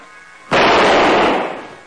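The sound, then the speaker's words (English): A champagne cork pops with one loud, sharp burst that turns into a broad hiss, which fades over about a second. “Relax, it's just some champagne we ordered.”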